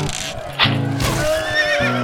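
A horse neighs with one shrill, quavering whinny that rises out of a rough, noisy background. The horse is among riders charging into dense timber.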